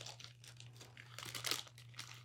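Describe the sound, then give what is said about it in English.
A hand grabs shrimp-flavored chips from a crinkly bag, making a quiet run of plastic crinkling and rustling bursts over a faint, steady hum. “Give you some ASMR here. Grab myself a chip as well.”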